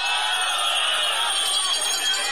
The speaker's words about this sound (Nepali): त्यही बेला सिट्ठी र ताली परर बजेका थिए।